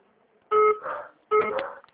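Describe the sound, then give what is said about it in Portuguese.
Two short incoming-call beeps sound on a phone line, each a steady electronic tone that cuts in and fades into soft line noise, with a brief gap between them. “Tem aparecendo uma ligação aqui agora, já atrapalhando tudo.”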